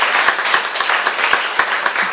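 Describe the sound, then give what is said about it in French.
Studio audience of an evening talk show applauding a guest's introduction: brisk, dense clapping that holds steady and fairly loud for about two seconds. “On peut applaudir.”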